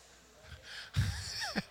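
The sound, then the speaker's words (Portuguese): A person yawning aloud, a breathy vocal yawn that swells into a louder voiced exhale and ends with a brief, higher sound. “Próxima vez você boceja em silêncio, tá?”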